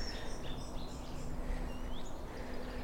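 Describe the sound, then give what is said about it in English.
A song thrush sings in a tree by a canal, faint high chirping phrases drifting over a steady outdoor hiss. “Let's see if we can meet this song thrush up here. Yes, brilliant song thrush.”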